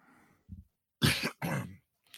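Throat clearing and coughing from someone with scotch caught in the throat: a short low grunt, then two harsh, loud coughing bursts, with another just starting at the end.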